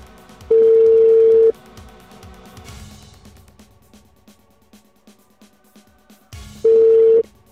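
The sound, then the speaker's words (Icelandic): Ringback tone on a telephone call: two long, steady, mid-pitched beeps about a second each, separated by a pause of several seconds with faint low background noise. “ég ætla nú að hringja í númerans Gunna Mag.”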